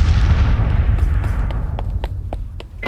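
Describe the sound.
Grenade explosions in a sports game: a big rumbling blast that slowly fades, followed by a quick series of sharp popping bangs.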